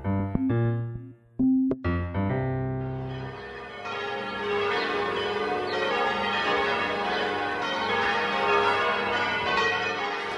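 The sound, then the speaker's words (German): Easter church bells ring out on the Mediterranean island of Menorca. A few separate clangs open, then a dense, overlapping peal of many bells continues steadily. “Was Sie hier hören, ist das Osterglockengeläut von Menorca, der Mittelmeerinsel.”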